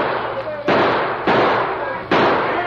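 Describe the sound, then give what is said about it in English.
Three sharp gunshots fired by two outlaws in a western radio drama, each a loud, abrupt crack with a long, noisy tail, spaced irregularly over a steady rushing background. “racing forward into the gunfire of the two outlaws”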